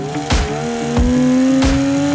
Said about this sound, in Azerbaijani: biz avtomobili 110 km yaxşı sürdük. Mühərik dağılmadı.